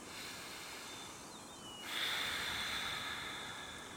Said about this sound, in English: He breathes in, like, really deeply.